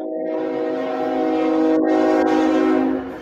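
A passing train sounds a long, loud horn blast of layered steady tones over a rumbling rail bed, fading slightly at the very end.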